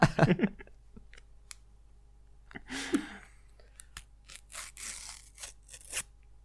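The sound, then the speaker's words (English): Paper tearing near stickers in short, crisp rips and scattered small clicks, coming in separate bursts with quiet gaps between, the longest cluster near the end. “That seemed like quite a nice tear, but yeah. A little bit away from the stickers.”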